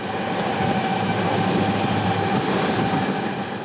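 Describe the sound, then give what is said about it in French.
A freight train carrying trucks rumbles out of the Channel Tunnel. Its deep, broad roar holds steady and loud throughout with a faint tonal hum, and no distinct wheel clacks stand out. “Alors donc là, nous entendons un train qui sort justement de ces jumelles, enfin d'un des tunnels. C'est un train fret qui transporte des camions,”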